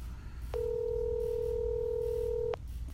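While a call is placed to leave a voicemail, a single steady telephone tone sounds for about two seconds, even and clear over a low background hum.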